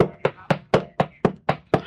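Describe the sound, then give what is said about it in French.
Seven sharp knocks on a door, evenly spaced in a steady brisk rhythm, each striking crisply and fading quickly. “Je vais frapper pour vous, ou après rentrer en brave chrétienne.”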